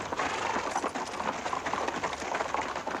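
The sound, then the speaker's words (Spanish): Horses of a mounted police squad setting off toward protesters, their hooves clopping in many quick, uneven steps, fairly faint and steady. “Un escuadrón de policías a caballo sale tras la valla y se dirige al encuentro de los manifestantes.”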